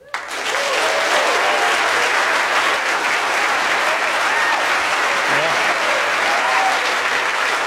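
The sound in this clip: Loud, sustained studio audience applause welcoming a college professor guest onto the eTown stage starts abruptly and holds as a dense, even wash of clapping to the end.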